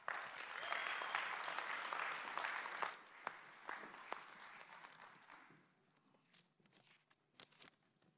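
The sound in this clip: A church audience applauding to welcome a speaker. Dense, loud clapping holds for several seconds, then thins out and fades into a few scattered claps.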